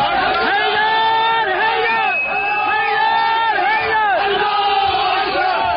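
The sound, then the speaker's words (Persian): Loud crowd of attackers cheering and shouting as they storm the Saudi embassy in Tehran in January 2016, armed with stones, sticks and Molotov cocktails. Many overlapping voices rise and fall in continuous, excited yells. “این صدای شادمانی مهاجمانی است که در 12 دی ماه 1394 با سنگ و چوب و کوکتل مولوتوف به سفارت و کنسولگری عربستان سعودی در تهران و مشهد حمله کردند.”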